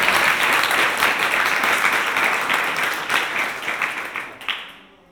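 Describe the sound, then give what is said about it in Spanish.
Audience applause at a game jam event, steady dense clapping holding loud for several seconds before tapering off and fading out at the end. “¡Un aplauso!”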